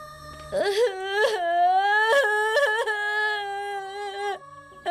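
A child cries in loud, drawn-out, high-pitched wails, broken by a few short sobbing catches. The crying is heard on its own.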